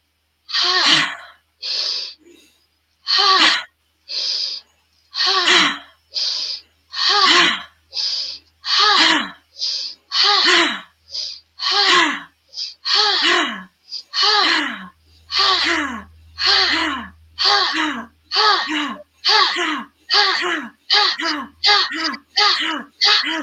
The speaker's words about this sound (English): we're going to push out through the breath sound of ha, ha. And we're going to bring it back in. Inhale in. And we're going to release out. Ha.